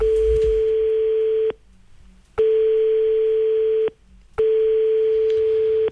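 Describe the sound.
Telephone call signal heard while phoning a man's son: three long, steady mid-pitched beeps, loud and evenly spaced, each separated by a short silence.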